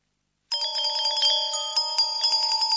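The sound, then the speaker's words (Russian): A fairy speaks in bright, tinkling bell-like chimes that start abruptly after a moment of silence and ring on continuously, high and sparkling, with small repeated pulses. “А почему она звенит? Феи так разговаривают.”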